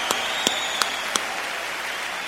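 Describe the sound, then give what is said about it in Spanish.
Audience applause forms a steady, dense wash of clapping, and four sharp, louder claps stand out at even intervals during the first half. “Con un aplauso de toda la bola de cabrones, claro. Claro que los que no aplaudan es porque son putos.”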